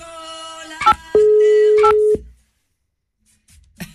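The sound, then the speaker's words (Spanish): A telephone call tone heard while dialing: a steady single-pitched tone lasting about a second, with short beeping bursts just before and after it, followed by near silence. “¿Se puede llamar? Vamos a llamarle a esta.”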